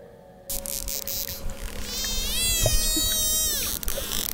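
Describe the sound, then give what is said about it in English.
Dolphins squeak in a researchers' recording: a wavering, high-pitched whistle with bright overtones lasts over a second, with sharp clicks before and after it, over a constant hiss. “Or at least making a lot of noises. Which she and her team would record. Wow, that's all dolphin squeaky?”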